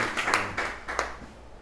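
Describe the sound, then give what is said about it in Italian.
A few faint, scattered hand claps from a small audience at a poetry reading in a Turin bookshop, sparse and quickly dying away into quiet. “Intanto un applauso, perché 23 anni sei giovane.”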